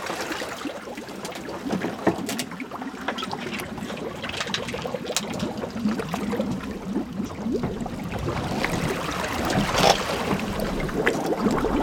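A boat being launched into a lake at a put-in: continuous churning and lapping water with a few sharp knocks, moderately loud and steady throughout, no voices.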